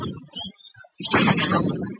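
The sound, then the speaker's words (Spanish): Police firing tear gas canisters at a street protest in central Ibagué, Colombia: one sharp, loud blast followed by a sustained hissing rush of noise, after a few softer thuds. “Bueno, vemos cómo empezaron a tirar gases.”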